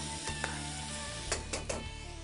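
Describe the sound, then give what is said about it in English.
Pasta being stirred in a pot in a kitchen, a few brief scraping knocks over a steady, fairly loud sizzle of frying food that runs throughout. “Stir my pasta.”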